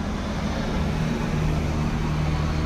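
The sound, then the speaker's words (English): A FedEx delivery truck drives down a street past people sitting on a porch, giving a steady, continuous rumble of engine and road noise that holds for the whole moment with no speech over it. “Shout out to FedEx. All the noise, background noise. Not even supposed to be riding down this daggone street.”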